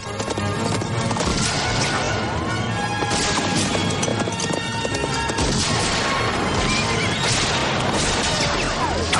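A horse whinnies while galloping in a chase beside a tank, amid a loud, dense action mix of pounding hoofbeats, crashes and heavy rumbling that runs throughout.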